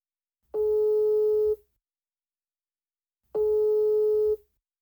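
Ringback tones on an outgoing telephone call: two steady, mid-pitched tones, each about a second long, separated by several seconds of silence.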